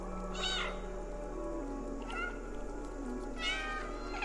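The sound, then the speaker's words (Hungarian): A cat meows in a video game, triggered by a button press: three short meows spaced well apart over a low, steady background hum. “Gomnyomásra lehet nyávogni egyébként a játékban.”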